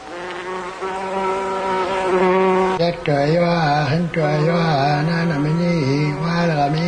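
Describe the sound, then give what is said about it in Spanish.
Flies buzz in a loud, continuous drone whose pitch wavers up and down the whole time, with no other sound over it. “Las moscas.”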